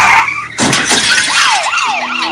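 A car skids and crashes in a road accident: a brief high squeal ends in a sudden loud crash with a burst of debris, followed by a wavering emergency siren wailing over the aftermath.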